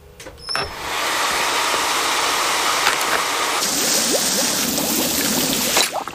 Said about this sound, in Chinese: 好了，灰灰，你的洗澡水放好了。